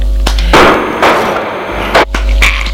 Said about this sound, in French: elle a tiré, ce qui les fait sursauter.